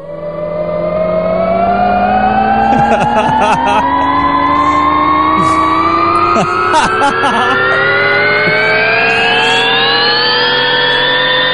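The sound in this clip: A science-fiction sound effect known as the Whirling Dervish: loud layered tones glide steadily upward for about eleven seconds, siren-like, with bursts of rattling clicks around the third and seventh seconds.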